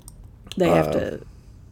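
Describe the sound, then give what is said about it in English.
A cat meows once, a short harmonic cry of about half a second that rises into a bright tone and fades, over a faint low background. “I heard the kitty.”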